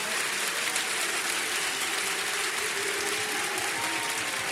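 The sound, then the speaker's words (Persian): Heydari clap, a rhythmic group clapping by a religious gathering, sounds as a dense, sustained wall of many hands beating together at an even, unbroken level throughout. “یک کف حیدری بزن، کف حیدری گفتم، دست بیاد بالا”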